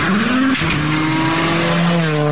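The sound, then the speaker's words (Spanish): A car engine roars with the accelerator pressed to the floor. Its harmonic whine climbs in pitch over the first half second, then holds a loud, steady high drone to the end, with no voices. “Se encienden los motores. Se prende el avión y pisamos el acelerador a fondo.”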